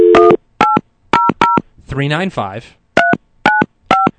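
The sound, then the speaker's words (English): Telephone dialing tones from a studio comm phone: an opening tone, then three short, evenly spaced keypad beeps, a brief stretch of voice, and three more beeps at a steady rhythm. “You know, I've never dialed out on the comm phone, so let me just bring it up like you would a normal line.”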